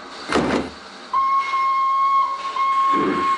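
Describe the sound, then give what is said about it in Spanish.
A steam train whistle sounds as the train pulls out from a station platform. A steady, high whistle tone starts about a second in and holds to the end, with short bursts of rushing noise before it and near the close. “El tren parte.”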